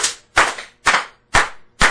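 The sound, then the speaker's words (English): A church audience gives a Russian clap: loud unison hand claps in a slow, steady rhythm, about five sharp strikes roughly half a second apart, each ringing briefly before the next. “Let's give a Russian clap.”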